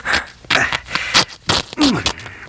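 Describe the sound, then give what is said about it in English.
A sharp sword slices through the skirt of King Saul's robe, several short ripping, scraping bursts of cloth in quick succession. “What did you do? Just cut off the skirt of his robe?”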